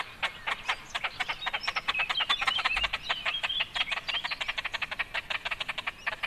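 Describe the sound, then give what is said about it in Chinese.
A large bird gives a long series of rapid, evenly pulsed calls, moderately loud, with no voices. “感觉这种比较大型的鸟，毛茸茸的这个雏鸟的叫声都蛮接近的哦。 是啊，嗯，那我们来听听它的其他叫声。”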